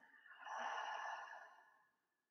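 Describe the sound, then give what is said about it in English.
A deep breath exhaled through an open mouth during a guided breathing exercise, one long soft airy rush that swells and then slowly fades, heard alone. “take a deep breath in all the way down into your belly. Open mouth exhale through the mouth”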